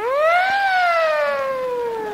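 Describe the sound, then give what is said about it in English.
Electronic siren wail from a toy glow-in-the-dark helmet with a revolving red light: one loud, harmonic-rich tone that climbs quickly in pitch, then glides slowly downward for the rest of the sound. “this glow-in-the-dark helmet with revolving red light and siren”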